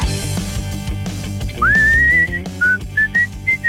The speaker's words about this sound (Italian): mi piaceva molto questo fischiettino che ho rubato lo spot